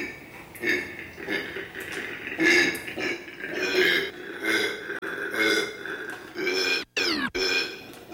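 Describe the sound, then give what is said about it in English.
A territorial male marsupial in a eucalyptus enclosure shared with a female lets out a ferocious call: a long, rough run of rhythmic grunting, snoring pulses, fairly loud, broken by a couple of sharp gaps near the end. “So I was totally unprepared for the ferocious sounds that these marsupials are capable of making.”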